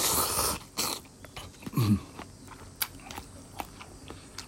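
Crunchy cashew-like nut bits in spicy dandan noodles are chewed in a series of faint, crisp crunches and bites, irregularly spaced, with soft mouth sounds between them.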